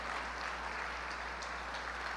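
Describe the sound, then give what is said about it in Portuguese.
A church audience applauds, a faint, even patter of many hands clapping that holds steady throughout over a low, constant hum. “Gente, quando alguém começar a bater palma, completa a palma, porque a pessoa está ali querendo aplaudir Jesus, você deixa ela constrangida, aplaude junto.”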